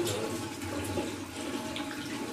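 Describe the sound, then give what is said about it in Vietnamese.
Water splashes and runs steadily as feet are washed and scrubbed for ablution, a soft continuous wash of water with no talk. “Rửa ngón chân hết, rồi nước nó vô mình chà lên.”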